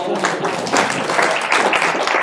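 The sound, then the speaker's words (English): Studio audience applause on a television game show, loud and continuous clapping that stays at a steady level for the whole clip, with no talk over it. “Let's have a nice round of applause for our first”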